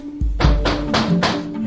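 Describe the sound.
Heavy knocking on a door as FBI agents arrive to make an arrest with a warrant: a few loud, blunt thuds in a steady rhythm over a low rumble.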